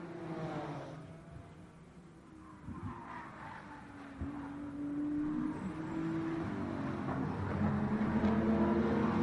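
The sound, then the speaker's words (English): Engines of BMW and Supra race cars running side by side over a hill: whining, revving notes that rise and fall, growing steadily louder toward the end. “Side by side behind, coming over the hill again. BMW versus Supra.”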